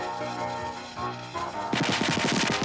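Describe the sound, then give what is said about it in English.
Popcorn kernels popping on a stovetop: a rapid, steady burst of sharp, crackly pops that starts abruptly after a stretch of music and keeps going to the end. “More kernels explode until they cover him completely.”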